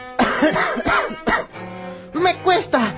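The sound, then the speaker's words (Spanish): A heavy smoker with a persistent cough makes several harsh, throaty bursts of coughing and throat clearing, some rough and voiced. They come in uneven clusters with short pauses between them. “Y esta tos que no me deja tranquilo.”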